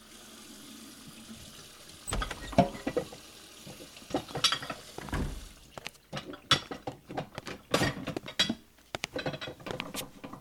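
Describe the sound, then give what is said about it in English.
Washing and cleaning things with water: quiet at first, then irregular splashes, rattles and clatters that grow busier and denser toward the end, with no talking. “What are you washing? Whatever I can find that might need cleaning.”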